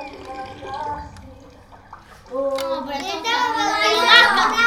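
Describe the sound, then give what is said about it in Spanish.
Water poured into a cooking pot to fill it for cooking, heard as a steady rushing, gurgling pour that begins partway through and grows fuller toward the end, with voice-like sounds before it. “en realidad estábamos llenando el agua a la olla para cocinar”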